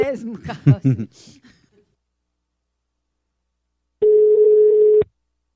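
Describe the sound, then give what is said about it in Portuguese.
A telephone tone while a call is being placed: one steady mid-pitched beep lasting about a second. It follows a short stretch of a person talking and a pause of silence. “Ei, mamãe, eu vou ligar pra Itaquiara.”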